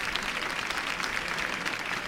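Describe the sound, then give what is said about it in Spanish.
Applause from the crowd at a religious procession of the Hermandad de la Iniesta, heard as a dense, even wash of many hands clapping that holds steady without a break. “ahí está el aplauso”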